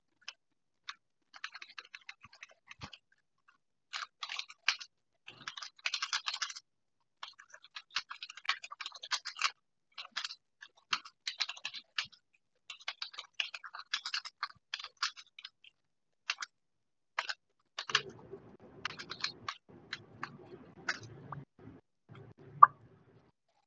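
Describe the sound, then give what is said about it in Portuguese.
Someone writing, heard as many short, scratchy strokes in an irregular rhythm with brief pauses, quiet and without talk, followed near the end by a lower, rougher rubbing texture. “Vou escrever para você, tá?”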